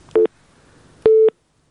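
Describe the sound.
Telephone tone after a call is cut off: two steady beeps at the same mid pitch, the first short and the second longer, sounding alone on an otherwise quiet line.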